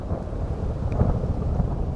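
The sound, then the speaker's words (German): Thunder rumbles low beneath heavy rain in a storm, with wind bending trees and the first lightning. It forms a dense, continuous roar with no sharp cracks. “Der Wind beugt die Bäume, entreißt ihnen einzelne Äste. Der erste Blitz. Regen ohne Maß.”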